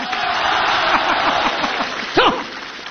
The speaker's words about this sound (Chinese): 那边的朋友掌声不够热烈呀。这边朋友给他起个哄啊。